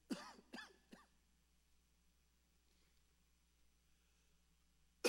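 A person coughing: three sharp coughs in quick succession right at the start, then near silence, with one more abrupt burst at the very end.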